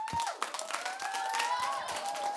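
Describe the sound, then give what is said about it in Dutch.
An audience applauds with a steady, dense wash of many hands clapping at moderate loudness. “Een heel groot applaus.”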